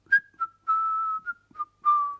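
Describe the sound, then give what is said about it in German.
A person whistles a short, clear tune of six notes at a fairly high pitch, mixing quick chirps with two longer held tones, alone with no other sound. “Könnt ihr eigentlich pfeifen? So zum Beispiel.”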